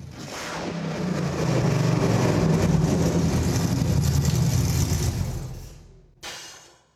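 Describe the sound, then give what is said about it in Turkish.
A 1965 Barracuda car engine runs with a loud, steady roar that builds, holds for several seconds, then dies away, followed by one brief final burst. “Çalışıyor. Bütün olanaksızlıklara rağmen artık elimizde çalışan 65 model bir Richard Petty Barracuda.”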